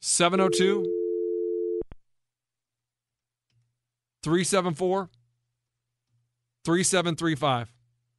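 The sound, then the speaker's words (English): A telephone tone plays as one steady, even-pitched note for about a second and a half, starting under a voice. A click follows, then two separate bursts of people talking with silence around them. “Oh, there's the phone.”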